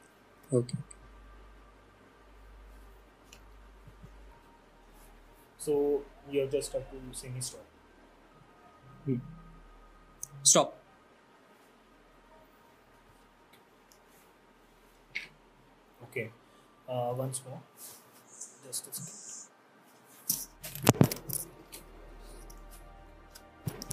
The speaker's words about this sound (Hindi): Basically वो दिख नहीं पाएगा बिकॉज नीचे टेबल थोड़ा नीचे है. मैं कार्ड्स स्प्रेड कर रहा हूँ